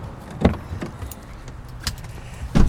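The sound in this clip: People climb into a car parked by propane tanks: several loud thuds of doors and seats, with soft rustling and a low muffled hum between them, and no talk.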